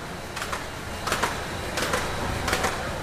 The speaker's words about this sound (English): A group of inmates works quickly at a machine that packages milk in cartons.